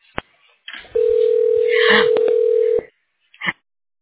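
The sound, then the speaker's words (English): A telephone line rings while a call is being connected: one steady, mid-pitched ring tone lasts about two seconds, with faint clicks before it and a short burst of sound after. “One moment while I connect you.”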